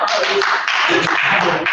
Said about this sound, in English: Let's just give God a hand